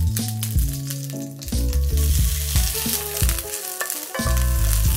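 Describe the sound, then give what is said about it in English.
Dried, previously frozen onions fry in olive oil in a pan with a steady, continuous sizzle, while music with shifting tones plays throughout. “I'm just gonna put olive oil in here. We're gonna do the onions first. I dried the onions, these were frozen onions.”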